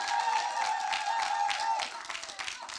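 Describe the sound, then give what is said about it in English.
Audience applause welcomes a youth and children's worker from Coventry to the front: dense, steady clapping that fills about three seconds, thinning slightly toward the end. “can we put our hands together and honour her and welcome her?”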